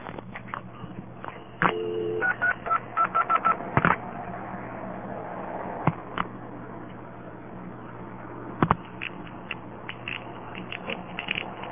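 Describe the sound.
Touch-tone dialing on a telephone line: a quick run of short, clean digit tones over a steady low line hum, followed by a few scattered clicks.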